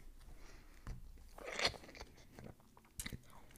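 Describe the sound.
Crunching bites of an Emmentaler cheese pretzel snack being chewed, a few quiet, sharp, irregularly spaced crunches against near silence.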